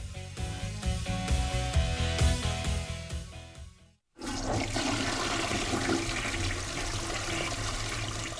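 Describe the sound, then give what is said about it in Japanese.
A clogged toilet flushes with a loud, rushing gush of water that starts abruptly halfway through, after a stretch of music and a short silence. “あれ？流れてない！トイレ詰まっとるじゃん！”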